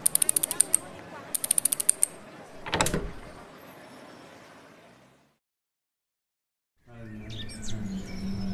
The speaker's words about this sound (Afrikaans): Net die deksel se kode reg indraai.